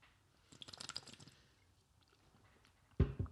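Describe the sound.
A quick sip of an energy drink: faint wet slurping and liquid sounds in a short burst, followed by a sharp knock near the end.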